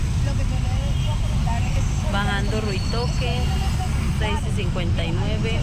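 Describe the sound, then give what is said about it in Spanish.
Road traffic rolls downhill on the descent from Ruitoque, a steady, dense rumble of engines that runs throughout, with muffled voices surfacing in places. “tengo aquí videito. Dice movilidad bajando Ruitoque.”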